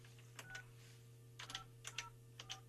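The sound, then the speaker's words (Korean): Telephone dialing tones sound as a call is placed to a listener's younger brother: a faint series of short beeps, mostly in quick pairs, over a steady low hum. “제가 그럼 동생한테 전화를 지금 한번 해볼게요.”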